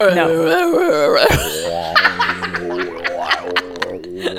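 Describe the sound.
A voice attempts throat singing, a loud, low, buzzing drone with wavering overtones that sounds more like a didgeridoo, mixed with snickers and laughter.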